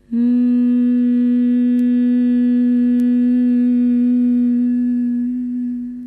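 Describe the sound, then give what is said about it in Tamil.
A humming bee sound is made on a long exhale during bhramari breathing: one continuous low, buzzy hum with rich overtones, held steady for about six seconds and easing slightly at the end, with no speech. “மூச்சை வெளியே விடும் போதே அந்த humming பீ like உம்ற சவுண்டை நம்ம produce பண்ணும் போது”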